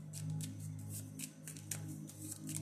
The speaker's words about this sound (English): Oh, so I pulled out my hidden truth cards and the I need you around card came out.